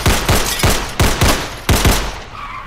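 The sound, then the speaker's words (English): Gunshots ring out in an audio drama, a rapid volley of loud, sharp cracks in uneven bursts, each followed by a short decaying tail, ending with a final shot after a brief pause. “You take the shot already.”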